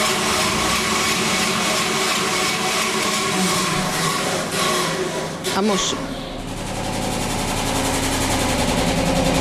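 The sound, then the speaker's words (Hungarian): Motor whir of a spin dryer (centrifuge) running during a washing-machine history demonstration, a loud, steady buzzing hum whose tone shifts and settles about halfway through, then continues evenly. “A minnyájunk által ismert centrifuga. Most kétféle eszköz működését is kipróbáltuk az előbb.”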